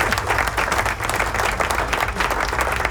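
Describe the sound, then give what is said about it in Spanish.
Dense crowd applause, loud and steady throughout with no break and no voices. “¡Aplauso!”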